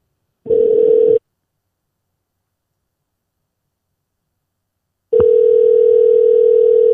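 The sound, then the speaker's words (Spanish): Telephone ringback tone from a call to a neighbor: a short steady mid-pitched tone burst, a long silence, then the same even tone returning and running to the end. “Estamos llamando al vecino.”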